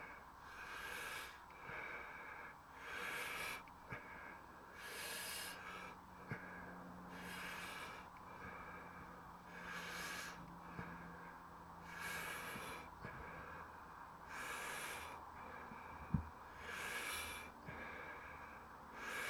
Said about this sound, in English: Trying not to leave all the air out and the breathe out. Fill the lungs up.